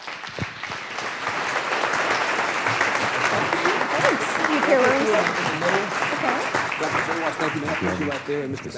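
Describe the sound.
An audience applauds to welcome panelists at a healthcare panel event, producing a dense, steady wash of clapping that continues at an even level throughout.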